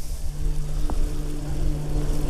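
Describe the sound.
A small propeller airplane flies by, giving a steady, loud, low engine drone with constant humming tones that runs unbroken from start to finish.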